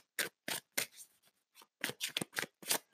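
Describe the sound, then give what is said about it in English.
Tarot cards being shuffled by hand during a reading, a quick uneven run of soft, papery riffles and slaps, many short bursts in about three seconds, faint and with no talk over them. “as I shuffle, I'm still shuffling for the next section here.”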